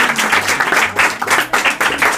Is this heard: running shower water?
no